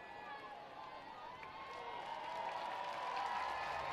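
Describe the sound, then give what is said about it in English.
A baseball stadium crowd applauds and cheers a bat dog, with clapping that swells steadily louder over the seconds while a man's voice talks over it. “A round of applause for the bat dog.”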